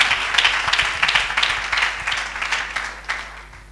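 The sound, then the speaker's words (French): A church audience applauds as a woman is called up to speak: brisk, dense clapping in steady waves that thins and quiets toward the end. “On acclame Dieu pour sa vie.”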